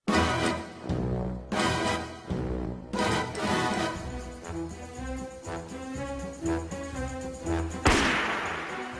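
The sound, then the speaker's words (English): James Bond gun barrel opening from The Man with the Golden Gun (1974): an orchestral theme with no guitar, punctuated by loud brassy stabs and ending with a sudden sharp crash-like burst. “the Man with the Golden Gun was the first one to drop the guitar from the theme that was held over, that you hear over the gun barrel. It's quite a different gun barrel sound you get on this one.”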